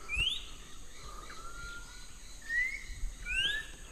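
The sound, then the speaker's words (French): Song of an orange canary in a rainforest: a few bright, high whistled chirps, some sweeping upward, come in short bursts over a steady hiss of insects and background noise. “on est juste en dessous d'un canari orange qui a ce chant merveilleux”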